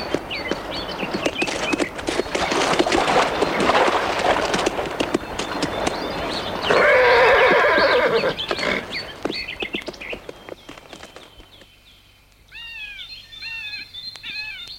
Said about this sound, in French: Monsieur Goethe et Madame de Dancourt et Monsieur et Madame de Condorcet sont partis en calèche faire une promenade.